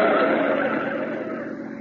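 A car turning a corner with its tires skidding during a chase, heard as a loud, steady, broad rushing hiss that eases slightly toward the end.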